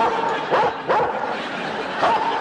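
A pet dog barks, giving a few short yips and woofs over a dense, busy background.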